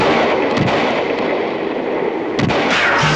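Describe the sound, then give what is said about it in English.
Gunfire aimed at a radio station under attack: a few sharp cracks break through a dense, loud, steady roar of noise, with no voices. “Somebody's shooting at us.”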